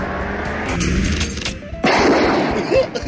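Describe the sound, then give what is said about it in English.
A gunshot rings out at a shooting range: one sharp, loud blast near the middle cuts through continuous rough background noise, and a dense clattering tail follows it. “At Bo Bob's Gun Range, when you hit three bullseyes in a row, why, you will get to take a very special shot at a dissenting liberal Democrat”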